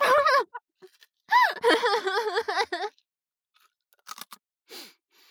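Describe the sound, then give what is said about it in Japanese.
After excited, wavering vocal sounds, a cracker is eaten: a few short, crisp crunches of biting and chewing come in quick bursts. “じゃあクラッカー鳴らすよ。いい？行くよ。行くよ。クラッカー美味しい。”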